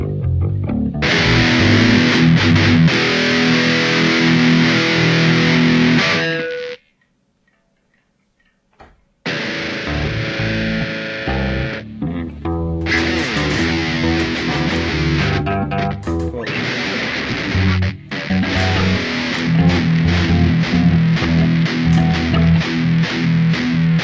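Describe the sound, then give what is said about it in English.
Heavily distorted instrument playing loud, dense, driving passages, broken by a short near-silent gap before the playing resumes at full force. “Let me know if the distortion sounds alright. Does that sound okay?”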